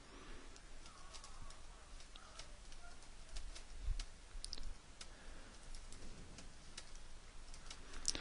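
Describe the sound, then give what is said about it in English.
Keyboard keys clicking faintly while code is typed into a computer, many light scattered taps with uneven rhythm over a quiet background. “Let me type some stuff in here and then I'll explain what's going on.”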